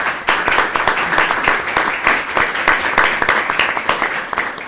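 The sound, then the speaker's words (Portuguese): Loud applause from an audience at a university conference celebrating social work graduates and students, a dense, steady patter of many hands clapping that holds at an even level throughout. “queremos celebrar com uma salva de palmas para todos”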